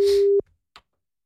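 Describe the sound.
A single short, steady telephone line tone sounds while a call is placed, a low pure hum that cuts off abruptly after a noisy opening, followed by a faint click.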